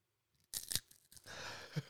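Crunching of peanut butter-filled pretzels being bitten and chewed: a couple of sharp, faint crunches close together, then softer chewing noise.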